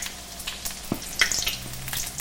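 Food with cheese inside sizzles in a pan as it is flipped, a steady hiss of frying broken by a couple of soft knocks from the turn.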